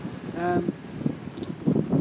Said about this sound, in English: It's kind of windy now.